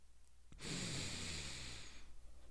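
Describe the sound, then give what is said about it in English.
A voice imitates a coworker's nostril breathing: one long, airy, hissing exhale through the nose, sustained for over a second, then fainter rough breath noise trailing off. “little nostril flappage. A little breathing.”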